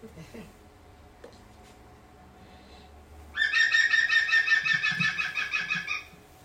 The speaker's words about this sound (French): on en profite, c'est gratuit, pour toujours reconnaître le pivert. On va l'écouter une seconde.